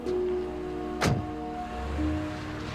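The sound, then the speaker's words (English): A taxi pulling up outside a neat two-story house: a steady low engine hum runs throughout, broken by one sharp thump midway before the hum carries on. “A taxi pulls up outside a neat two-story house”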